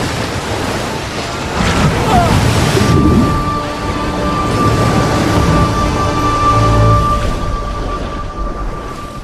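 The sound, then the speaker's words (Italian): Stormy sea waves and wind roar together, with a loud, continuous rumble of rough water around a lifeboat. The roar swells and surges without a break. “La scialuppa fendette l'aria e cadde nel mare in burrasca.”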